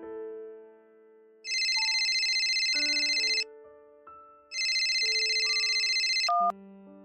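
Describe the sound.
An incoming call rings on a telephone in two long bursts of bright electronic ringing, separated by a short pause, over a soft melody of lower tones.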